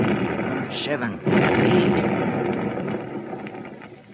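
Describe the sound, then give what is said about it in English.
Blasting charges go off down a mine shaft as a deep, broad rumbling roar. It swells after a second and slowly dies away, with a man's voice heard over it. “There's 9. Ah, that was a darn good round. Brung down a lot of rock. There's 10. I reckon I'll stick to this brand of fuse from now on.”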